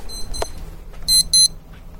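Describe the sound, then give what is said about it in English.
An alarm clock, set to wake someone aboard a Mediterranean cruise ship, rings with two loud bursts of shrill electronic beeping in quick succession over low background noise, preceded by a fainter high tone. “That's the alarm that I set to wake me up this morning.”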